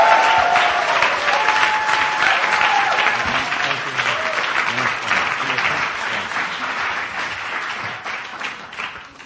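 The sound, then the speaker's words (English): An audience applauds to welcome a pastor to the stage: dense, loud, continuous clapping that holds steady and then slowly thins and fades. “Let's put our hands together. So welcome up Pastor John Kim.”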